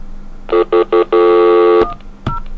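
Landline telephone tone after flashing the hook: three short, evenly spaced beeps lead into a longer steady tone, followed by a couple of brief sharp clicks on the line.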